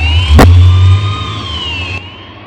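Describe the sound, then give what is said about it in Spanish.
A car engine starting outside a bank during a police operation: a sharp click, then a steady low rumble that eases back, with a thin high whine held above it throughout; no voices. “Arranca el coche.”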